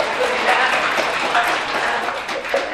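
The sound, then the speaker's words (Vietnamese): Applause from an audience at a Vietnamese Buddhist dharma talk, a dense, steady wash of hand clapping that stays fairly loud and even, with a voice faintly mixed in. “Đuối, đúng không? Vỗ tay đi.”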